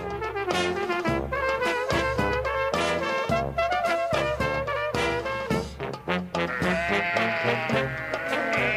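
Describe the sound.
Sheep bleating: many overlapping, wavering bleats form a continuous loud chorus, with repeated onsets and some dips near the end.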